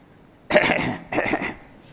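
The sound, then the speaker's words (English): A man coughing, two harsh, loud coughs separated by a brief pause, with quiet before and after. “So when they sat there and opened up their bags, so he started coughing.”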